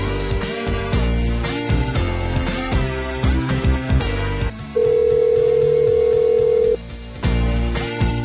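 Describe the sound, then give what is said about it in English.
A phone call ringing out to a woman's phone, heard as one long, steady ring tone set between stretches of busy music. “All right, I'm just going to ring this lady's phone for the next hour until she picks up. She's got to pick up.”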